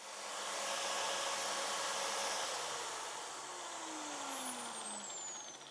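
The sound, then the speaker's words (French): Steam hisses from a steamer nozzle onto umbrella fabric as the last step in finishing a handmade umbrella: a loud, steady, breathy hiss that runs the whole time, easing slightly midway. “La vapeur sort par le pommeau et ça vous permet de poser le parapluie dessus sans brûler le tissu et donc d'enlever tous les petits plis.”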